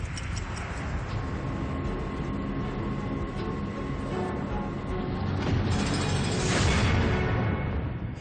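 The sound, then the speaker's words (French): Steady mechanical rumble and grinding from a 100-ton telescope's drive mechanism turning a 5.5 m flywheel, continuous and fairly loud, swelling slightly near the end with a brighter hiss layered on top. “Ce mécanisme actionne un volant d'inertie de 5,50 m de diamètre. Avec une précision parfaite, cette roue fait tourner les 100 tonnes du télescope.”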